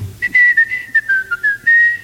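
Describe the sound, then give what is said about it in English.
A man whistles a quick run of short, clear notes, the pitch drifting gradually lower before climbing back for a longer final note, loud and alone. “he turns his back. So he go to whistle.”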